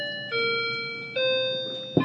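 A clock chiming two bell-like tones, each struck then ringing and slowly fading, followed by a brief sharp knock.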